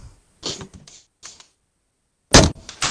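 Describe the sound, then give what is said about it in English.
A game controller thrown down during a gaming session, heard as a few bursts of sharp clattering knocks separated by silence, the loudest coming last. “Did you just, like, throw down your controller?”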